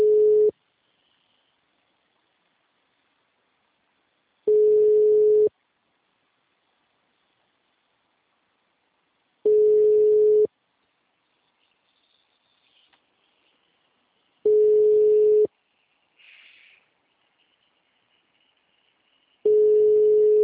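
A telephone line tone after a call is placed: five steady beeps, each about a second long, separated by roughly four-second silences.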